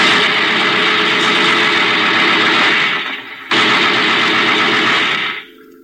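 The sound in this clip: Machine gun fire in two long, sustained bursts. The first runs for about three seconds, then breaks off briefly. A second loud burst follows and stops abruptly, leaving a low rumble.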